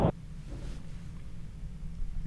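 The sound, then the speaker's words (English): Steady low rumble of a car being driven, coming through a caller's phone line, with a brief burst at the start and then an even road hum with no talking. “We hear you driving.”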